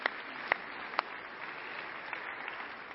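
Audience applause in appreciation of volunteers in the sound booth, a soft steady wash of clapping with a few sharper single claps standing out near the start.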